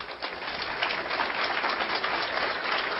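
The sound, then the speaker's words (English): An audience applauds to welcome the next speaker at a talk, an even wash of clapping that stays steady and fairly loud throughout. “please help me give a warm hand of welcome to our next speaker, Captain Joyce Riley.”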